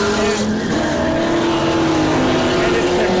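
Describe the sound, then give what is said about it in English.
A Dodge Viper and a Corvette racing, with loud, continuous engine roar from the high-powered cars filling the whole stretch without a break. “The Viper just got blown by a Corvette.”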